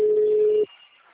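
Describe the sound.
Telephone ringing tone while a call connects: a single steady, mid-pitched tone sounds for just over half a second, then cuts off, leaving a faint line hiss.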